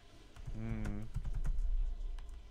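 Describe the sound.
Computer keyboard typing into a calling and messaging app: quick, light key clicks in an irregular run, with a brief voice sounding near the start.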